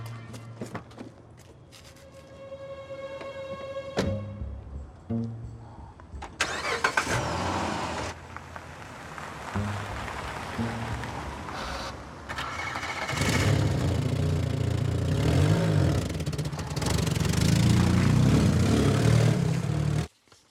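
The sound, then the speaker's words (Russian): Car engines: a foreign car drives past an old, rusty car, which then sets off after it. The rumbling engine noise builds and grows louder and denser toward the end. “Иномарка проехала мимо старой и ржавой машины детектива. Он поехал за ними.”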